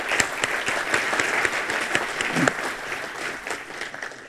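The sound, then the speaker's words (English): An audience at a historical society lecture gives a couple applause: full, steady clapping with some sharper individual claps standing out, tapering slightly toward the end. “So let's give Mr. and Mrs. Schwartz a hand.”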